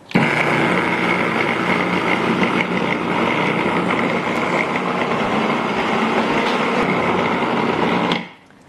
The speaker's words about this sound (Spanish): simplemente raspar los lados del procesador para que se muelan bien todo junto.